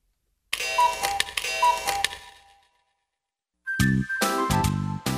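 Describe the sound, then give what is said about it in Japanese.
A doorbell rings with bright, ringing chime tones in two bursts of repeated strikes, separated by a short silence. “ベルが鳴ってるわ。”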